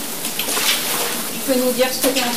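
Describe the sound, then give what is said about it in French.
Floodwater from mountain runoff being pushed across a house's flooded ground floor, a steady wet swishing wash throughout, with a voice talking over the latter part. “je pousse l'eau qui est dans tout le rez-de-chaussée.”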